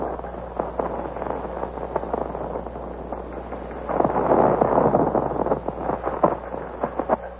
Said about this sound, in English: There's been an exchange of shots, as you've heard, between the Colonial Minutemen and His Majesty's regulars who are marching on Concord.